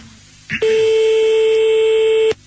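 A telephone line tone sounds as someone dials to call a person back: a short burst, then a loud, steady, sustained electronic tone lasting nearly two seconds before cutting off abruptly, with no voices.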